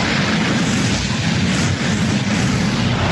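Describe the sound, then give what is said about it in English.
Blaze rifle sound effect from a tabletop role-playing game, a loud, dense roaring rush of fiery noise that holds steady for about three seconds without a break. “Give me that Gulch gun sound effect. Oh, dude, it's a blaze rifle now, Bo. Oh! It sounds like this.”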